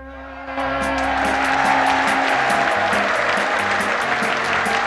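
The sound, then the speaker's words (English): Enthusiastic applause from a coach party gathered in a tent in a field: a quieter start swells after half a second into loud, dense, sustained clapping that holds steady to the end. “coach party applaud enthusiastically.”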